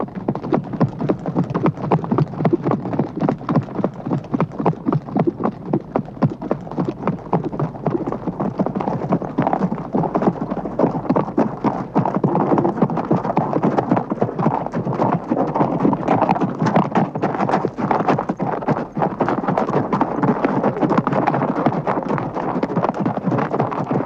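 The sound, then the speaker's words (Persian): Horses carrying a line of mounted riders advance in a steady, dense clip-clop of many hooves, loud and continuous throughout with no pauses. “غلام بیک جلوی صف اسب سواران و نایب نیز پشت سر او پیش می روند.”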